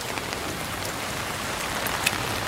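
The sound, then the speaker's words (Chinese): Rain falls steadily on a running route, making a dense, even hiss. Faint scattered drop ticks run throughout, with one slightly sharper tap near the end. “今天因为是下雨的缘故，所以没有很多人。”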